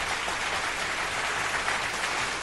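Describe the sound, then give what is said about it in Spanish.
Continuous applause, an even hiss-like wash of many hands clapping at a moderate level that holds steady for a couple of seconds with no voices. “¡Oh! Puro aplauso de tantas frases locas, ¿eh?”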